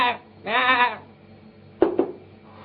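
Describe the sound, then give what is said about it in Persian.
A sheep bleats in one wavering, quivering call of about half a second, preceded by a faint short sound and followed by two brief, sharp bursts. “گوسفند زنده ایه”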